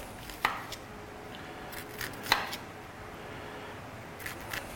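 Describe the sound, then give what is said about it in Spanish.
A knife slowly chops an onion into very small pieces, giving a few sparse, sharp knocks spread unevenly over a steady low background. “Hacerlo despacito para que salgan trozos de cebolla muy pequeños. Así.”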